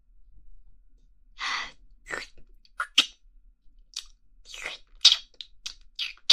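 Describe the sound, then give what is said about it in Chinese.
Crunchy biting and chewing on a black bear-paw ice cream bar: many irregular, moist crunches and mouth sounds, some sharper and louder than others, with no talking. “这个黑色的大脚掌雪糕味的也太好吃了，我现在要加快速度了”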